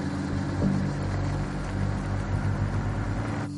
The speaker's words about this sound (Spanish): Conducen por un camino de tierra en mitad del campo.